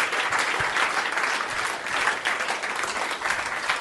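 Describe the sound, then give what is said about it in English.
Audience applause rounds off a live show, a dense, steady wash of clapping that holds at an even loudness throughout, with no talk over it. “let's have a big round of applause for Chris Rich and Matt Stewart's 5 Disgusting Mysteries”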